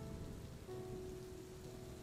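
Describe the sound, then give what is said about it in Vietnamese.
Heavy rain falling in a steady, dense hiss of drops on a surface, loud and unbroken throughout with no voices. “Ôi, mưa như thế này làm sao đi được?”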